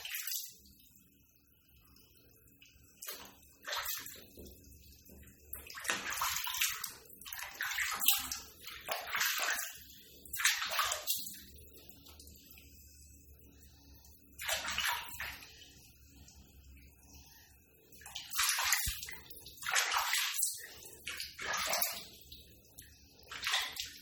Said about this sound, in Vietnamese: Miệng thối lắm này, rửa cái miệng luôn đi nè.